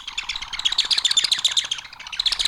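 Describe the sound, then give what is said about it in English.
Birds coming out of the woods: a dense, continuous chorus of rapid, high chirps and tweets that overlap without pause and stay fairly loud throughout. “sounds like birds coming out of the woods.”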